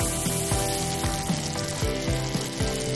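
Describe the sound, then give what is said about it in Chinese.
Pork kidney and dried chili stir-fried in a hot wok: dense, loud sizzling and frying with repeated scraping stir strokes about every half second, continuous with no talk. “先把这个樟树港辣椒干煸一下，水分往外煸一煸，有一点点焦糊感。加入这个腰花，”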